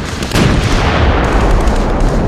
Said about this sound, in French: Oh, une mine. Les salopards. Ça devait faire un moment qu'ils creusaient depuis chez eux.